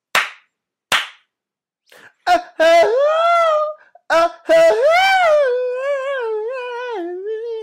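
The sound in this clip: Two sharp open-hand slaps, evenly spaced and loud, followed by a few softer taps, then a melodic sung vocal with sustained, wavering notes.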